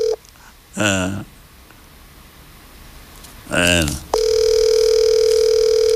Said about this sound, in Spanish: Estoy llamando a Aridio Castillo, el jefe de la cuadra.